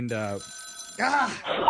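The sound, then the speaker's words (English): An old rotary phone rings with a continuous metallic bell, its high shimmering tone running beneath and between stretches of people talking. “My grandma's rotary phone is ringing. Oh, I haven't had anybody call that in years.”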